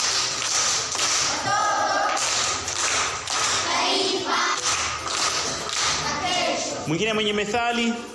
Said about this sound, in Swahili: Makofi kwa Sofia.